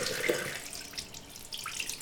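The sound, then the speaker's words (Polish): Tap water runs in a steady, hissing stream from a faucet while a hedgehog is washed under it, a continuous splashing rush without any voices. “Na razie go umyjemy po prostu wodą, a później zastosuję odpowiedni środek dezynfekcyjny.”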